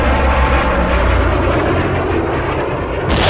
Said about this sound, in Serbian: Ovo je baš izgledalo kao probijanje zvučnog zida. Mi to nećemo raditi.